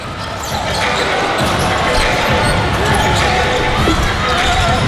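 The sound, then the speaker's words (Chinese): Basketball dribbling on court during a professional game, the bounces faint beneath a loud, constant crowd roar, with talk over it. “布朗运球， 这边也是提前夹击。”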